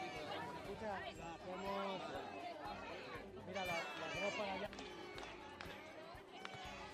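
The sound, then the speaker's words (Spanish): Dense babble of many voices at a protest outside the Vallecas Municipal Board in Madrid on an afternoon. Overlapping talk and shouts rise and fall continuously, with no single clear speaker. “Ya lo escuchas, Jesús. Ambiente reivindicativo esta tarde aquí frente a la Junta Municipal de Vallecas.”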